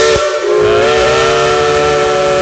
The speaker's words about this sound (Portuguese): Nossa Maria Fumaça já tá aí nos trilhos, rasgando as montanhas das Gerais, rasgando as montanhas do Brasil.